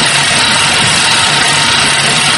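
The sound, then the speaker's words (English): A noisy old exercise bike being pedalled gives off a loud, steady whirring drone, harsh and unbroken from start to end. “It's impossible. This bike is too noisy. I can't hear the TV.”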